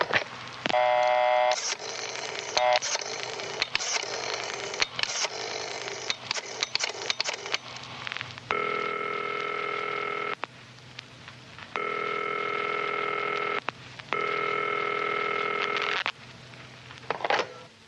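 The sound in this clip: A telephone number being dialled through an operator: a quick jumble of dialling tones and clicks, then three long, steady rings separated by short pauses, with no voices.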